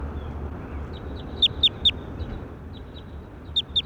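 High, sharp bird chirps, each sweeping quickly downward in pitch. A quick run of three is followed after a pause by two more, with fainter chirps in between, over a low steady background hiss.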